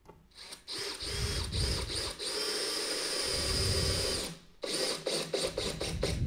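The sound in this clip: Screws being driven into wood end grain: long stretches of continuous whirring, grinding noise broken by a short pause, followed by several shorter bursts.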